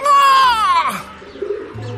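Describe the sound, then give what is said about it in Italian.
Pigeons cooing: a loud warbling coo that falls in pitch, followed by softer, lower murmuring notes. “Guarda che posture da parassiti. I piccioni.”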